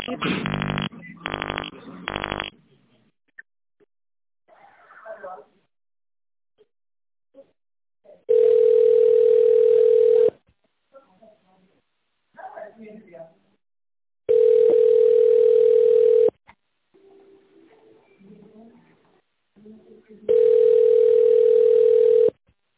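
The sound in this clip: A telephone line tone sounds three times as a call is placed to a company, each a long, steady, loud tone of about two seconds, evenly spaced, with brief stretches of speech in the gaps.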